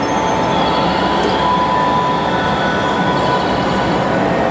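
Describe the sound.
Belle Montagne et Mer train in Japan running on rails: a loud, continuous rumble of wheels on track with a thin, steady high whine running through it and no voices.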